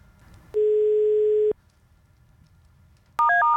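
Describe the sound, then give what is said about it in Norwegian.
Telephone line tones as a call is placed to a football federation official: one steady electronic tone lasting about a second, a pause with quiet hiss, then a loud burst of stepped, changing tones near the end. “La oss eh, ringe Svein Oddvar.”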